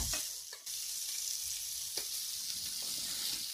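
Liver sizzles and fries steadily in a pan, giving a dense, bright crackle that carries on throughout, with a few faint clicks and no voices.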